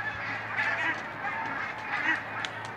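A large flock of barnacle geese honks while flying overhead, many overlapping calls forming a steady, fairly loud clamour throughout, with no voices.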